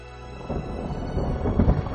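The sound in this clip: A thunder sound effect in a rumbling storm: a low, broad roll that grows rougher and louder in its second half with crackling bursts, continuous for about two seconds, with no voices.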